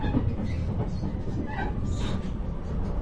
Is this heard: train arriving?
yes